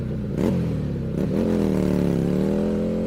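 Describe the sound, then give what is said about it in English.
Motorcycle engine revving, with a couple of quick throttle blips that swing the pitch before it settles into a steady, throaty rumble. “All this and more as we rev up our motorcycle”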